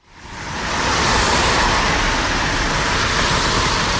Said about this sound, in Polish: Po godzinie 8 samochody, których jest coraz więcej.